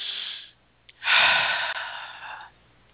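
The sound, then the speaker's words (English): A deep breath taken during a guided self-care exercise: a softer breath, a brief pause, then a long, loud, airy rush of breath that holds steady for about a second and a half before fading, with no talking. “Actually, let's take another deep breath.”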